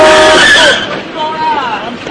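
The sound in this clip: Car tires screech and skid as a car brakes hard, nearly running a man over; a loud tonal squeal fills the opening moments, then fades while voices talk over the rest.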